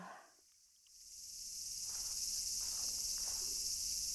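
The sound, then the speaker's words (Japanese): Cicadas singing in summer heat: after a brief quiet moment, a high, shrill buzzing drone swells in and then holds steady at a low level. “セミの声ってどうしてこう暑苦しいんだろうね。嫌でも夏って意識しちゃうよ。”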